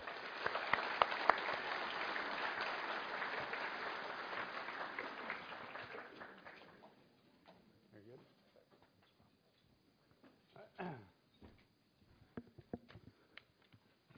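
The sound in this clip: Audience applause welcoming a speaker at a Naples event: dense, steady clapping for about seven seconds that then fades away, followed by a voice speaking with a few scattered sounds.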